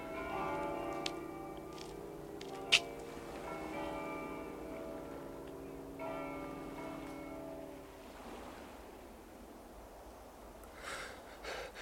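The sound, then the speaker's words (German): Church bells ring faintly, their sustained tones overlapping for about eight seconds before fading into quiet background noise. “Die Glocken.”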